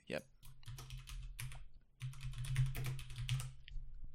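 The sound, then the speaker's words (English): Typing on a computer keyboard: rapid, dense clicking in uneven bursts, with a brief lull near the middle before the clatter resumes more steadily. “I can type a little quieter.”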